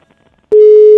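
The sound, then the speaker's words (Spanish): A telephone line tone after dialing a relative's number: one loud, steady, mid-pitched continuous tone that begins abruptly after a short quiet stretch and holds to the end. “A ver, le estamos marcando a la tía Margarita.”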